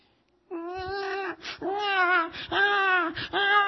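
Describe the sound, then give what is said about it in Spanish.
A newborn baby cries in a run of four loud, high, wavering wails, each broken by short catching breaths, with no talk over them. “Ay, qué lindo el bebito, cómo llora.”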